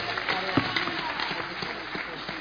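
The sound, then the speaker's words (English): An audience claps together at a church gathering, a dense, steady patter of many hands that holds an even loudness throughout with small scattered peaks. “Clap for Jesus.”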